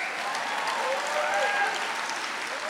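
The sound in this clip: Audience applause at a public debate event, a steady and continuous wash of clapping that holds an even loudness throughout, with a faint voice over it.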